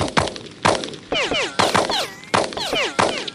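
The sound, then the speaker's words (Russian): Rifle gunshots from police firing at a rocket, heard as several sharp, loud bangs in an uneven series, with descending whistles trailing after the shots. “Послышались выстрелы. Вокруг засвистали пули. Услышав, что пули так и барабанят по стальной оболочке ракеты, Знайка посмотрел в иллюминатор. Полицейские продолжали беспорядочную стрельбу.”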